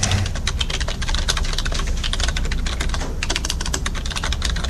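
Rapid typing on a computer keyboard: many quick, clicking keystrokes in an irregular but continuous stream, steady in loudness from start to end, with no voices.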